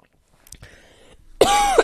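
A loud, raspy cough bursts out after a soft, breathy lead-in, strained and voiced, ending abruptly.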